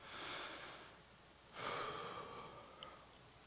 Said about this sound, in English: I want you to imagine for a minute what slowing down might feel like. Let's all take another breath.